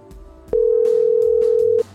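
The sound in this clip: A steady mid-pitched telephone call tone sounds once as an unbroken hum lasting a little over a second, starting abruptly and cutting off cleanly, with faint background noise before and after.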